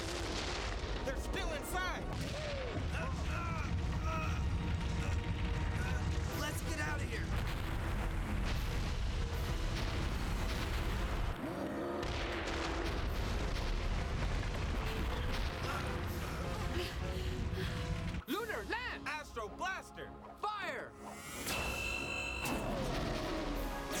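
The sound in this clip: Satellite lasers fire in a video game amid a continuous, loud barrage of explosions, with a dense roaring rumble and repeated crashing bursts that thin out slightly toward the end.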